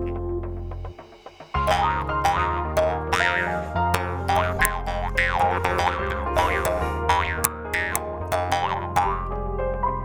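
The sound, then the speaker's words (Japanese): Mukkuri, the Ainu mouth harp, plucked in a quick run of twangy boings whose ringing overtones sweep and warble like shifting vowels. The playing is loud and heard alone, after a brief opening tone and pause. “ああ、あれはね、ムックリね。 ムックリ。面白い名前だよね。ちょっと変えるとムックリスケベちょっと 違う。みたいな。まあでもそれが面白い音がするんだよね。 まあとりあえず演奏してみようか。”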